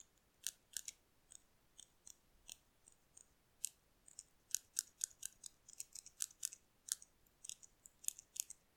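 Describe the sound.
Scissors snip hair during a haircut, many quick, crisp clicks coming in short bursts and singles, faint and alone with no talk.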